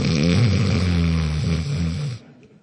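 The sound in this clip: A person imitates the snoring of a sleeping man with one long, rumbling, throaty snore. It holds steady and then cuts off abruptly near the end.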